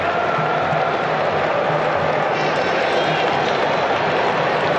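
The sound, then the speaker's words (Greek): Senegalese football fans applaud in the stadium during a match as a substitution is made. The crowd noise is a broad, continuous roar with clapping and cheering blended in, steady and moderately loud throughout. “Τα χειροκροτήματα από τους Σενεγαλέζους.”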